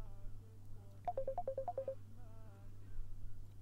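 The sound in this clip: Phone ringtone sounding for an incoming call: a quick run of short electronic beeps lasting about a second, over a low steady hum.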